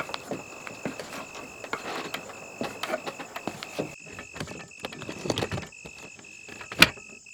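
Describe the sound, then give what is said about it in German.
A wooden ladder creaks as two people climb it up to sleeping spots high in the treetops at a forest occupation in Saxony. Irregular creaks and knocks run throughout over a steady high tone, ending in one sharp, louder crack. “Auch Cora und Anura klettern zum letzten Mal die knarzende Holzleiter hinauf.”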